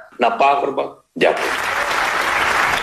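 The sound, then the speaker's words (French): British parliamentarians give Zelensky a standing ovation: a voice speaks briefly, falls silent, then loud sustained applause bursts in and continues evenly. “Voilà la, détermination de Volodymyr Zelensky, saluée par une standing ovation des parlementaires britanniques.”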